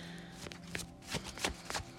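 A tarot card is drawn from the deck during a reading, making a few soft papery slides and flicks at an uneven pace. The sounds are quiet, with no voices.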